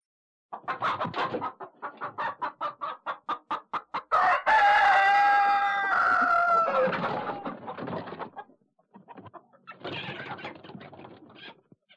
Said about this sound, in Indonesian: Suara apa, anak-anak? Benar, suara ayam.